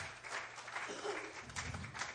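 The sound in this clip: Congregation clapping hands in praise during a church sermon, a dense, continuous patter of many hands, steady and fairly faint, with no talk over it.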